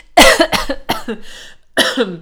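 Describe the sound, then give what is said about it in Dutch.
Coughing after choking while talking fast: a few harsh, loud coughs come in quick succession, then a short pause and one more burst. No other voices. “ik ben zo snel aan het praten dat ik me verslik en moest hoesten”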